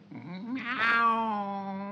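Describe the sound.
A cat giving one long, drawn-out meow that climbs into a strained, nasal peak and then holds a steady tone to the end.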